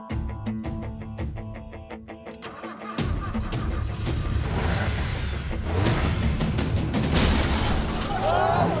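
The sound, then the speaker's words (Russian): A car crashing into a fence gives loud, dense crashing and shattering noise that runs steadily to the end, following an opening stretch of quieter, tonal sound. “Женщина села в машину и въехала в забор.”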